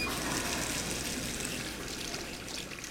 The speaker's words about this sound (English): After he washes his hands.